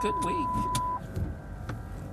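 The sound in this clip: A car driving on the road, with faint low interior rumble and a steady high beep for about the first second before the hum continues alone.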